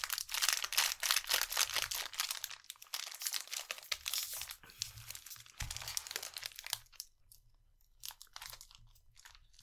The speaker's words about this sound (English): Thing about this that's nice is we can just break it in the package.